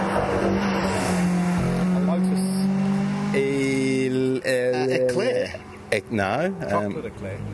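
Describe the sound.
A Lotus Elan 2+2 drives past with a droning engine note whose pitch wavers as the revs rise and fall.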